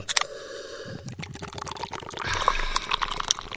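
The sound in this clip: A can of drink is opened and poured: a sharp crack, then another snap and a growing fizz of liquid and crackling bubbles, moderately loud with no talk.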